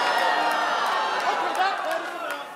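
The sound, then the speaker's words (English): An audience hisses at a speaker on stage, a steady, breathy crowd noise that runs throughout, mixed with voices talking. “They just hissed me. This woman literally just hissed me.”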